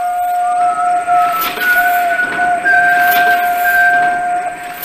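A steam locomotive's whistle sounds in loud, sustained tones over a rushing hiss. The pitch holds steady and steps slightly higher a couple of times, continuing without a break to the end.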